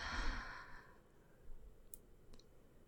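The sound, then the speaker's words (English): Soft breathing, a breathy exhale at the start followed by much fainter, quieter breath noise, all very low in level. “Breathe in. Breathe out.”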